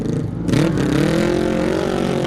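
A twin-cylinder racing motorcycle engine roars loudly as the rider sets off, with a burst of revving at the start, then a steady, deep, throbbing drone whose pitch climbs slightly and holds.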